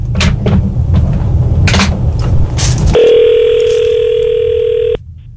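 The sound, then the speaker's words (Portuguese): The ringing of an outgoing phone call: after a stretch of rustling and clicking, a single loud, steady ring tone holds for about two seconds, then cuts off. “Ligar pra ele de novo, mano. Chamou.”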